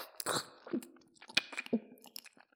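Wet chewing of a mouthful of gummy candy: a few irregular squelches, smacks and soft crunchy bites, fairly faint, with no talking.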